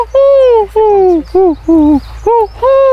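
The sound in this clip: A human voice imitates a pigeon's cooing with six rhythmic, throaty hoots in a steady pattern. Each coo is loud and slides gently downward in pitch.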